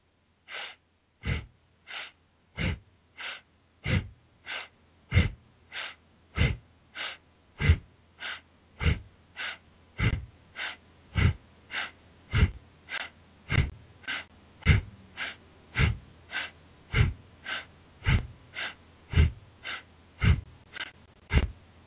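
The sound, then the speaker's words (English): Forceful rhythmic breathing during a standing waist-twist exercise, inhaling on each left turn and exhaling on each right. Many evenly paced, strong breaths repeat steadily throughout, with no talking. “Twist at a moderate pace. Inhale when you turn left, and exhale when you turn right. Do this for 2 minutes.”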